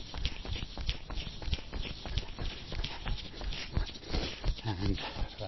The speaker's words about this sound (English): And then we are going to get into the main session. So, number one, take it away, 50 or 60 metres, stride it out.